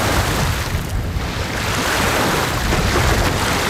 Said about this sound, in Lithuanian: Čia jau girdite, kaip į krantą daužosi Kuršių Marios pervalkoje.